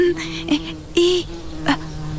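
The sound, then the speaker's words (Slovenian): A small fly buzzes in the air, making a steady, low, droning hum throughout, broken by a few brief, brighter bursts. “Zdaj pa slišim tvoj obrok. Majhna muha bo dovolj komaj za predjed.”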